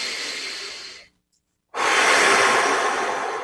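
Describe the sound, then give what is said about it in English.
Deep breathing: two long, loud, airy breaths separated by a short silence, the second fuller and stronger than the first, with no talk. “So breathe easily. 3 quick deep breaths.”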